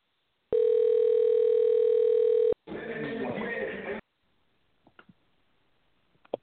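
A telephone line tone during a call: one steady, buzzy tone lasting about two seconds, followed by a burst of rough noise and then a few faint, scattered clicks.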